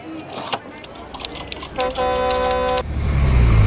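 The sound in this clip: A bus arriving at a crowded scene with heavy police security sounds its horn in one steady, sustained honk of about a second. A low engine rumble then swells beneath it, with background voices and clatter throughout.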